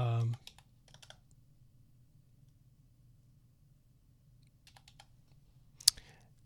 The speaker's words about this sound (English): sorry, guys. I have to type in.